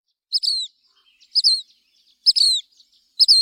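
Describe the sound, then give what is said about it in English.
Birds chirping in a park: four short, high-pitched phrases, each a quick pair of notes ending in a downward-sliding whistle, separated by brief silences. “Other birds you might hear are Buick's wrens, black phoebes,”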